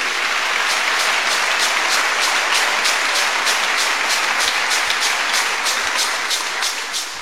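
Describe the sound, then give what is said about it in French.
Congregation applause acclaiming the Lord at a celebration of a priest's fifty-year jubilee: dense, steady clapping fills the whole stretch without pause and eases slightly at the very end. “je demande d'acclamer le Seigneur”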